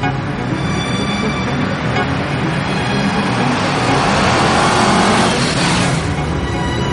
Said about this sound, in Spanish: David avanza en su moto por la ciudad